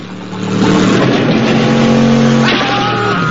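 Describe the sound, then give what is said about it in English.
Engines of 4x4 vehicles roar as they race off-road through mud. The revving swells quickly and stays loud and continuous, with a shift in engine tone near the end. “They send one 4x4 off the road and race past another two before ramping over a bump.”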